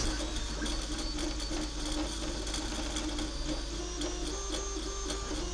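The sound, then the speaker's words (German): A 3D printer runs while printing an Easter egg, giving a steady, continuous whirring hum with layered motor tones and small rhythmic ticks, unbroken throughout and with no voices. “Wie sich das anhört, so ein 3D-Drucker. Ich drucke gerade ein Osterei.”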